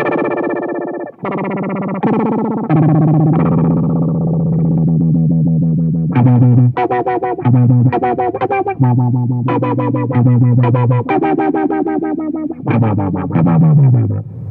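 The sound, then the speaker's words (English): Guitar played through a Keeley Bubbletron effects pedal: a few sustained, shimmering chords open, then many plucked notes and short phrases follow, all with a watery, wobbling chorus-like modulation and a bright, steady loudness. “to the Bubbletron, this is my favorite pedal right now. It sounds like this.”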